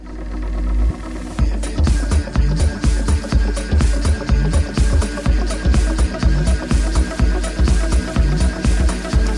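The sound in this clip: Electronic dance music from a young Chinese DJ and producer: a brief rising build-up, then a steady, loud, pounding kick-drum beat with bright synth layers repeating in a tight, even rhythm.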